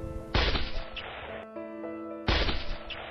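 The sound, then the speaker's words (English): A dramatized gunshot effect recreates the shot fired at President Kennedy in Dallas. Two sharp, loud cracks sound, one near the start and one near the end, with sustained musical tones ringing between them. “Suddenly, there was a sharp, loud shot.”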